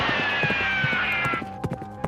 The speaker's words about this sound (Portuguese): Eu vou pegar aqui de novo meu cavalinho, vamos lá, e eu vou sair aqui nessa cidadezinha aqui onde o tiroteio tá rolando